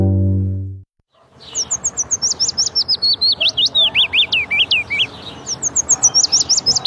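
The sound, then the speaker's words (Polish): A willow warbler sings a soft, melodious phrase of rapid high notes that gradually fall in pitch, then starts a second phrase near the end, after a brief low tone at the very start. “Piecuszek. Jego śpiew składa się z charakterystycznej, stopniowo opadającej sekwencji dźwięków. Jest miły dla ucha, melodyjny, miękki i nieco melancholijny.”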